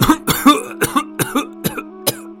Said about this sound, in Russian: Старик указал на настольную игру и хотел было сказать что-то еще, но зашелся в кашле.